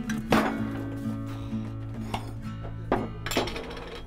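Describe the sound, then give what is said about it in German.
Sharp glass and metal clinks as a jar of applesauce is opened at breakfast on a family's houseboat, a few distinct knocks spread over a steady low tonal hum. “Du kannst mal den Apfelmus aufmachen.”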